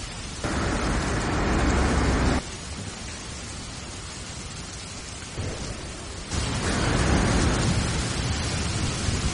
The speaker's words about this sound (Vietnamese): Tiếng sấm chớp vang rền, điên cuồng, gào thét. Một cơn mưa to bất thình lình đổ xuống